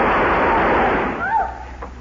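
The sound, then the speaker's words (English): Gunfire from a shootout with bandits in an old Western radio drama: a dense, loud burst of shots that runs for over a second, then fades away. “Did Jack jump when the shooting started?”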